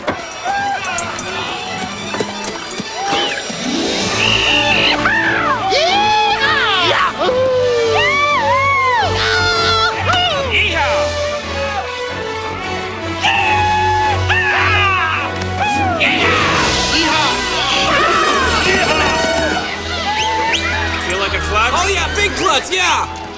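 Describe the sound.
Cowboys yell and whoop before driving cattle out, with several loud, high, rising-and-falling cries over a steady, busy background that includes voices.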